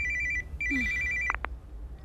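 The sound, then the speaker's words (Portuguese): A mobile phone rings with a bright, warbling electronic tone in two short bursts, followed by a couple of sharp clicks. “Mãe, o seu telefone está a tocar.”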